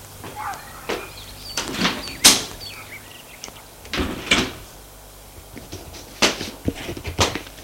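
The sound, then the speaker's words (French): Knocking on a bedroom door comes as a few sharp, irregular raps, some in quick pairs, separated by quiet pauses, with no voices. “Et va frapper à la chambre de Julien.”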